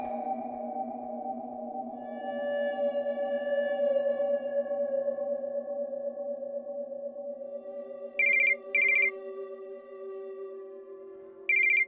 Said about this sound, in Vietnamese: Tiếng chuông điện thoại lại vang lên đáng ghét